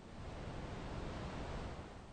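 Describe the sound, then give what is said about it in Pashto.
Water rushing down very high waterfalls swollen by spring snowmelt forms a dense, unbroken roar of hiss and rumble that stays at an even loudness from start to finish. “تاوده هوا د اوبو ډېرو جریانونو لامل کېږي او له دومره لوړ ابشارونو څخه ښکته رالویږي چې د نایګران ابشارونو څخه هم لوړ دي.”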